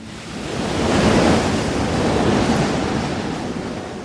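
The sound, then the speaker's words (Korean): Gusting storm wind and rough sea waves make a broad, loud roar that swells to a peak, then eases and surges again, with no voices. “미풍은 돌풍으로 변했고 배는 성난 파도에 심하게 흔들리기 시작했습니다.”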